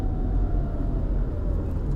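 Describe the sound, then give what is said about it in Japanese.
Deep road rumble as a bus passes a car on an overpass, a steady low drone at moderate level with no voices. “今バスにちょっと道を譲りました”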